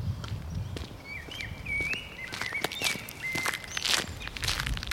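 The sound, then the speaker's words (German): Faint footsteps walk onto the brick grounds of the former Schultheiss brewery in Berlin-Kreuzberg, a soft, steady run of steps over quiet outdoor ambience. “Ich laufe auf das Gelände der ehemaligen Schultheiß-Brauerei am Berliner Kreuzberg.”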